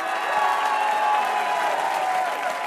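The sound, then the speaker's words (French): Applause and cheering from an audience giving an ovation to a star guest: a dense, steady wash of clapping that stays loud and even from start to finish. “Je voudrais une ovation pour notre invité vedette.”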